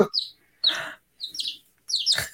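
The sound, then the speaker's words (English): New baby chicks chirp in four short, high-pitched bursts, fairly faint and separated by brief silences. “I have an interruption here. We just got some new baby chicks.”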